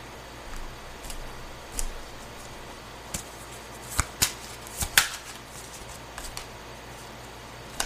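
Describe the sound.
Tarot cards being shuffled and drawn give soft scattered taps and flicks, with a few sharper snaps near the middle. The sounds are quiet and no one talks.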